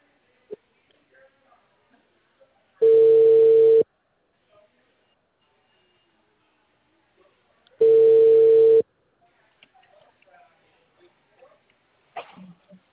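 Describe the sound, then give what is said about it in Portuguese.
Telephone line tones after a dropped call: two identical, steady, loud beeps about one second long and five seconds apart, with faint clicks and rustling between them. “acredito que a ligação tenha caído.”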